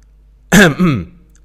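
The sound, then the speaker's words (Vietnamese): A young man clears his throat with a single cough: two loud, harsh, rasping bursts in close succession, the first sharper and the second a shorter rumble, alone against near silence. “liền hắng giọng ho một tiếng”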